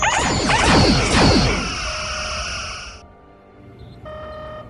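Spaceship weapons fire in a space battle as a loud burst of overlapping energy blasts and whooshes. The barrage fades into a sustained electronic hum with a brief high tone near the end.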